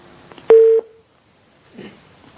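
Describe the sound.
A single short telephone tone marks an incoming call to a call-in line. The steady beep lasts a fraction of a second and is followed by silence, then a faint voice.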